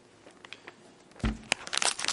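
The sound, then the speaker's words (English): Paper rustles and crinkles as handouts are passed out to a group, with a few soft crackles early on and then a denser run of crisp, crumpling bursts growing louder through the second half. “I have a handout that I'd like each of you to have, so maybe Abe and Steve, if you could come, Stephen, could you come up here and give out these handouts?”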